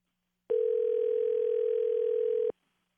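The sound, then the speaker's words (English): A telephone dial tone heard as a number is dialed: one loud, steady, unbroken tone lasting about two seconds, starting and stopping abruptly with silence on either side. “is dialing a number now”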